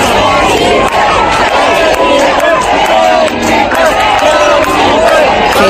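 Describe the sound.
A crowd in Melilla chants for King Felipe and Queen Letizia, a loud, dense mass of voices with overlapping cheers and shouted chants that continue without a break.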